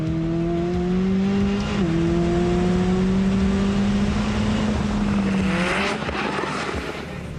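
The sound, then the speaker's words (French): A convertible sports car accelerating hard with the top down, a car that reaches 0 to 100 km/h in 2.9 seconds. Its loud, steady engine roar briefly dips near two seconds, climbs slightly, then eases off toward the end. “le plaisir de rouler décapoté, c'est excellent, quoi. Ça amplifie le son du moteur,”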